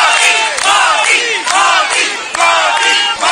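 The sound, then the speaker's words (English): A large Indian diaspora crowd welcomes Prime Minister Modi on his arrival at a hotel in Jakarta, cheering and chanting loudly in repeated rhythmic bursts of many voices, sustained throughout. “Prime Minister Modi received an enthusiastic welcome from the Indian diaspora upon his arrival at the hotel in Jakarta.”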